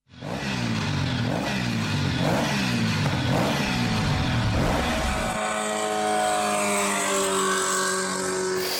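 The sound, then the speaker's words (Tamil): Loud engine of a vehicle speeding past on a road, a throbbing, pulsing drone that drops abruptly in pitch midway and continues as a lower, smoother hum. “அப்பா, பாதே கிழிஞ்சிரும் போல. எப்படித்தான் இவ்வளவு வேகமா வண்டி ஓட்டுறாங்களோ!”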